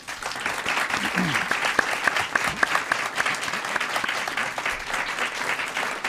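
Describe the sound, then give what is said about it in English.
Studio audience applauding at the close of a political debate: a dense, steady wash of many hands clapping that stays loud and even throughout, with no break. “We would also like to thank our audience here in the WFPL studios. You can hear them.”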